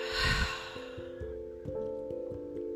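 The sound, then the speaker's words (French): A deep breath exhaled during a guided relaxation exercise, heard as a soft, breathy rush at the start that fades quickly, set over faint, sustained, steady musical tones. “Encore une fois, inspirez profondément. Rétention de quelques secondes. Et expirez.”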